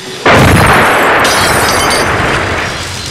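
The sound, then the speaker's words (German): A bomb explodes on a Mustang car: a sudden, very loud blast after a brief quieter moment, then a sustained roaring rumble that slowly fades over a few seconds. “Er hat eine Bombe auf den Mustang geworfen.”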